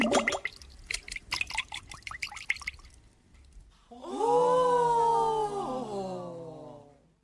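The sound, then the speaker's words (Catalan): A crown drops into a pond with a quick run of watery plops, drips and splashy clicks for about three seconds. A sustained, wavering tonal effect follows and slides downward at the end. “Li va caure la corona dins l'estany, on l'anguila estava esperant per agafar-li i nedar cap endins.”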